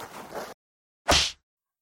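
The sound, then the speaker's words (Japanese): A hard slap lands on someone's face to wake them after fainting: one loud, sharp smack, preceded by a softer rustling noise and a short silence. “もっと強めにビンタするにゃん。”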